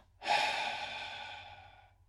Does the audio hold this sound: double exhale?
yes